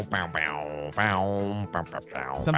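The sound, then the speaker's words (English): A voice imitates radio bump music, singing a quick, rhythmic run of repeated low syllables with short pauses between phrases. “but the bump music is amazing. Really. Oh, yeah? Does it sound like this?”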